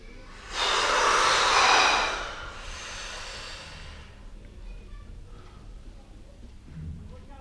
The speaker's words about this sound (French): Allez, on souffle. On inspire, on rassemble nos tensions.